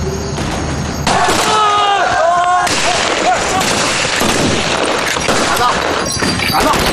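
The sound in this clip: Gunfire in a shootout crackles as many sharp, overlapping shots and bangs in dense, irregular bursts, with voices heard among the loud clatter.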